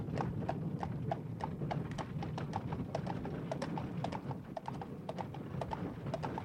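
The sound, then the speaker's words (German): Horses' hooves clip-clop steadily as riders and travel carriages depart. Many quick, even hoofbeats repeat without pause throughout, over a constant low rumble. “Zu Pferde, in Reisewagen brachen die Verbannten auf.”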